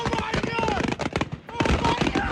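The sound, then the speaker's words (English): Fireworks loaded on a barge go off accidentally during a Fourth of July celebration, a dense, rapid run of many sharp pops and crackles with voices mixed in. “in Sullivan County, Tennessee, the local volunteer fire chief says fireworks loaded onto a barge went off accidentally.”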